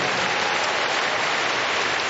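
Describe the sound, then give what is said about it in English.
Steady crowd applause at a sports game in tribute to someone who has died, a dense, even patter of clapping that runs unbroken from start to finish. “And a warm round of applause in tribute to the late Neil Danaher.”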